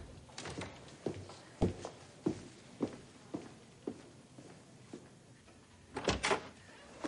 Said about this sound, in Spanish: Cuando se aleja por el pasillo, Sweet Pea entra sigilosamente y cierra tras ella.